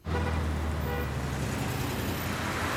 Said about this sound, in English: A car parks on a busy California street.